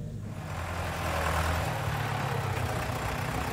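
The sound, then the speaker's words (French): A tractor engine running with a steady low rumble that continues throughout and swells slightly after the first second. “Jean-Pierre vient donner un coup de main avec son légendaire tracteur”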